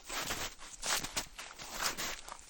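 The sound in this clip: Footsteps walk outdoors past a solar installation as a steady series of soft, crunchy steps in an even rhythm, fairly quiet throughout.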